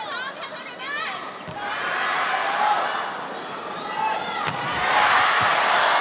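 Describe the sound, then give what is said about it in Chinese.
A volleyball serve and strike during a women's international match against Japan: two sharp impacts, one near the start and one past the midpoint, cut through steady crowd noise, with talk running over the arena din. “李盈盈发球”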